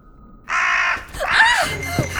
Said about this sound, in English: Crazy bird. You almost flew into me.